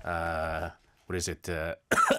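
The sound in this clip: Throat clearing and coughing from something stuck in the throat: a few short, rasping voiced bursts separated by brief pauses, ending with a harsher, noisier cough.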